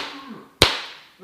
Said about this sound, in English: Maybe we can do some ASMR. Get some belt noise, you know? This is the noise of the belt.